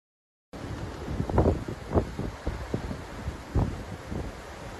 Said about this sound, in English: That's the sound of wildfire destroying over 50,000 acres of land in Eastland, Texas, around 120 miles west of Dallas.